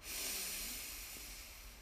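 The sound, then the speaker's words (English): A deep, slow breath during a guided breathing exercise, heard as a soft, airy hiss. It is faint and steady and fades slightly toward the end, with no talk over it. “And one last time, deep breath in”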